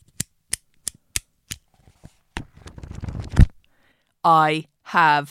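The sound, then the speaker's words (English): A bamboo pen makes a series of sharp, dry clicks, evenly spaced at first, then sparser. Papery rustling from a notebook follows and ends in a soft thump, and a person then speaks briefly. “I have a pen, which sounds like this. And I have a notebook, which sounds like this.”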